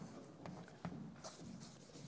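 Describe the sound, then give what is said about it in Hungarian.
Faint writing on a board: a few soft scratching strokes in short bursts, quiet and alone with no talk over them. “Kicsit lejjebb írom, mert oda még fogok írni valamit.”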